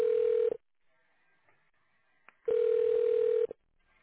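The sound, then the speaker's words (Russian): Electronic telephone tones sound on a company's automated phone line: a short beep, then near-silence, then a longer steady beep of about a second, each at the same pitch. “Чтобы дозвониться до нужного вам отдела, воспользуйтесь кнопками тонального набора.”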